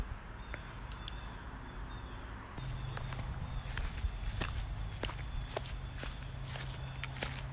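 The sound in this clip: Footsteps walking along an old, overgrown path: many steady steps in a regular rhythm, with faint insects chirring underneath.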